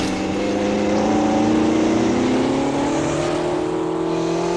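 A vehicle engine revving and accelerating during a chase along snowy tracks. A loud, continuous droning roar climbs gradually in pitch throughout, with no voices.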